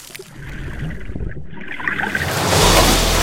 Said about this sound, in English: The helicopter hits the water.